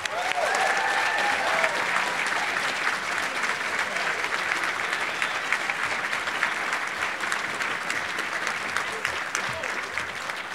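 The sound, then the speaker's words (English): Audience applause welcomes a speaker about to give a toast at a society's 40th-anniversary gathering. The clapping is dense, steady and even in loudness for about ten seconds, with no talk over it. “please join me in welcoming Professor Lillian Bevere to give a toast to 40 years of the Federalist Society”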